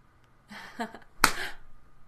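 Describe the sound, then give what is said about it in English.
A hand slaps a buttock with a single sharp, loud smack, preceded by a brief vocal sound. “how much do you like the slap of my hand against your ass?”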